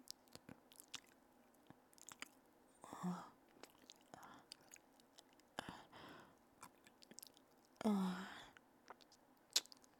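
Wet licking and slurping sounds come in a few soft bursts scattered across quiet pauses, with faint breathy whispering between them.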